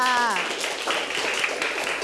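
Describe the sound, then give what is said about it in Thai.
Students in a classroom clap for a classmate. A voice opens briefly, then a busy patter of many hands applauding fills the rest at a fairly constant level. “โอ้โหครบถ้วนเยี่ยมยอดมากครับปรบมือให้เพื่อนค่ะ”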